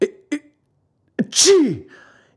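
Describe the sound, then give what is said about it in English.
A man's voice acts out sneezing, loud and alone: two short sharp bursts, a brief pause, then a longer explosive sneeze that trails off. “Two loud sneezes finished his speech.”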